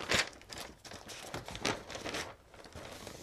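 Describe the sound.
Pages of notes being flipped, heard as several soft, quiet bursts of paper rustling and crinkling that come at irregular intervals.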